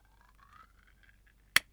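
Glasses clink once in a toast, a single sharp, bright tap that rises out of near silence after a faint murmur.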